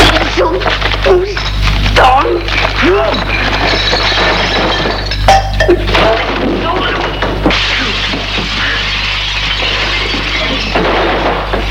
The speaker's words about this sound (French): Il casse tout dans l'appartement. Il casse tout.